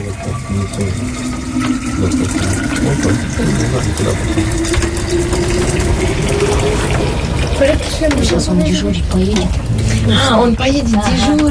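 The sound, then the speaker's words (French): Tea is poured into a thermos in a snowy, icy landscape, a steady gurgling stream whose tone climbs gradually as the flask fills, running under a voice that keeps talking throughout. “Volodia va partir garder le troupeau pendant 24 heures, donc elle verse du thé dans le thermos.”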